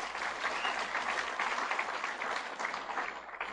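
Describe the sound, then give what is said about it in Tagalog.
Sustained audience applause fills a church during a Christmas service: dense, steady clapping that holds at an even level throughout, with no talk over it. “Palakpakan po natin ang Panginoon.”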